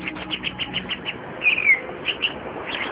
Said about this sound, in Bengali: পরন্তবেলা মাঠে কয়েকটা শালিক পাখি ঘুরে বেড়াচ্ছিল।